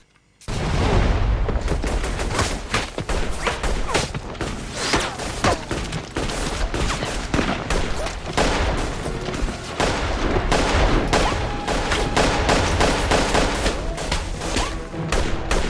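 Sustained gunfire erupts from the shadows of woods as soldiers are fired upon: dense, rapid volleys of many loud overlapping shots and cracks that continue unbroken for the whole stretch, with no voices.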